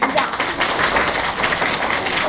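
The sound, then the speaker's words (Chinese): A crowd claps at a lecture after being asked to show hands by clapping. The sound is loud, continuous, crisp clapping from many people, packed with sharp individual claps and sustained without a break from start to finish. “如果你觉得你是中国人，请鼓掌。”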